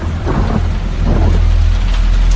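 Heavy rain with thunder, a loud continuous hiss of pouring rain over a deep rolling rumble that never lets up, with no voices.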